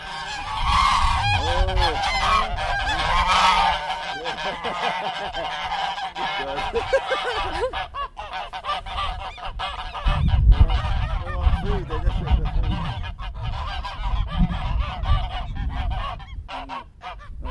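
Geese honking loudly in a group, with many overlapping nasal honks and calls forming a continuous, busy chorus throughout.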